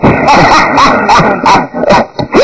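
A little dog yips and barks in a quick, loud series of sharp, high bursts, with a few whimpering notes among them and no talk.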